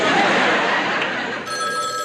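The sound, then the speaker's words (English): A telephone rings with a loud, continuous jangling bell that holds steady for the whole stretch, with no voices over it. “Well, at least the phone is still working.”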